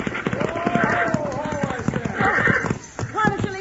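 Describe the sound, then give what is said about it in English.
Horses' hooves gallop during a chase in a rapid, steady beat, half buried under loud, overlapping shouting voices throughout. “Pull them horses down!”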